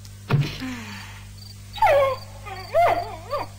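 A cartoon wolf cub howling in an animated audio drama: a few short, high, whining cries with wavering pitch, separated by pauses, over a steady low hum.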